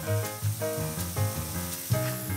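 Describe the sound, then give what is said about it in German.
Mushrooms sear over high heat in olive oil in a pan, producing a faint, steady crackling sizzle with no talk. “brät die Pilze scharf in Olivenöl an”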